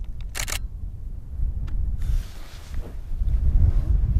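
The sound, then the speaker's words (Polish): Strong wind buffeting a camera microphone outdoors, producing a continuous low rumbling roar that swells louder toward the end, with a brief crisp click burst near the start. “Musimy dobrze ustabilizować aparat, bo bardzo mocno wieje.”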